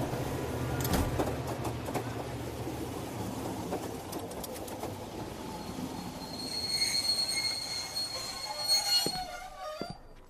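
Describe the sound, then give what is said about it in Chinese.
A train arriving at a station rolls in with a continuous rumbling clatter, and high metallic wheel squeals grow stronger toward the end before the sound drops away. “各位旅客请注意，列车即将到达秦岭车站”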